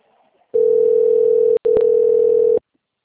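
A telephone line tone sounds as a call drops, a loud, steady mid-pitched hum lasting about two seconds with one brief break near the middle, heard on its own.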